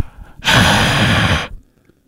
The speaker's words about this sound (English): That's me exhaling carbon dioxide.